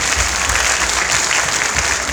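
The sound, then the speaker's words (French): A crowd of parents applauds at an international baccalaureate school ceremony celebrating students. The clapping is loud, dense and unbroken, forming a thick, even roar from start to finish. “On peut encore applaudir ce caractère.”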